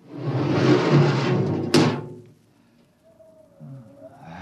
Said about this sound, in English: All right, Park, you. Open the airlock.